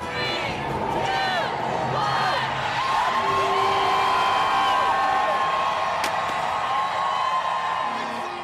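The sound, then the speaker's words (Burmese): Crowd cheering at a New Year celebration in Times Square, New York: loud, sustained cheers, shouts and whoops from many people, with shrill tonal calls rising above the roar. “ကြားခဲ့ရတာကတော့အမေရိကန်ပြည်အောင်စုနယူးယောက်မြို့က Times Square ရင်မြန်မာနှစ်သစ်ကိုကြိုဆိုနေကြတာပါ”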